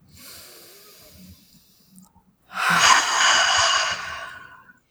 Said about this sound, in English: So deep breath.